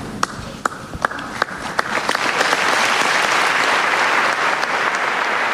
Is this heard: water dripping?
no